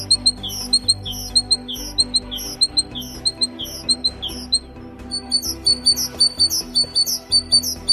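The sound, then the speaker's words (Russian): A great tit sings its bright, high, repeated two-note phrase in a steady rhythmic run. It pauses briefly midway, then resumes. “А это голос большой синицы, с которой знаком практически каждый.”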